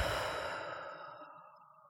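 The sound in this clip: A deep breath through the nose during a belly-breathing exercise: one soft, airy rush of breath that fades gradually over about two seconds, with no talk.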